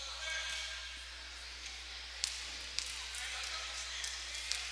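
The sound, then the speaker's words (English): A basketball is dribbled at the free-throw line before a shot in a game: a few sharp, short bounces ring out over a steady background hiss, spaced unevenly, with talk around them. “One dribble around the back, one dribble, free throw is up, and free throw is good for Dana Barnes.”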